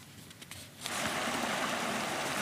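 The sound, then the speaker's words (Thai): Water overflows a small reservoir's spillway and pours down at Lup Nong No reservoir, Kut Chum district, Yasothon. A softer opening gives way to a steady, full rushing wash that holds evenly to the end, with no voices. “อยู่บริเวณสปิลเวย์ที่มีน้ำล้นออกมาแล้วก็ไหลลงมากลายเป็นความสวยงามตามธรรมชาติครับ”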